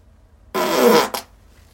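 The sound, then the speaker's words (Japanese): A loud fart lasting under a second, a sustained rasping blast followed by a brief second puff, alone against quiet. “今からトイレなんですけど、おならが出そうなのでここで出したいと思います。”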